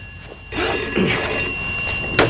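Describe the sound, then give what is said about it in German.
A telephone rings in an apartment: a continuous, shrill, buzzing ring over a hissy background that holds steady for about two seconds. “erhält in seiner Wohnung einen Anruf.”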